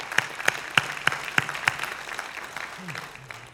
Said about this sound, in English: A little golf clap, yes. A smattering of applause.